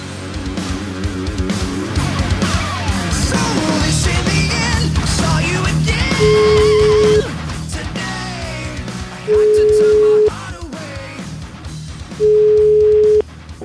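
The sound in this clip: Telephone call tones play while a call is being placed. Three steady, mid-pitched beeps of about a second each come at even intervals, after a loud, dense stretch of mixed sound.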